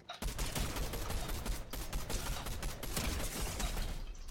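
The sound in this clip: Rapid gunfire in the video game Fortnite, a dense, unbroken barrage of loud shots that runs through the whole stretch with barely a pause.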